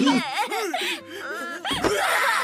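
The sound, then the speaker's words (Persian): A person crying, heard as loud, wavering wails and moaning sobs with a sliding, unsteady pitch and a brief catch of breath midway. “تو هم داری گریه میکنی”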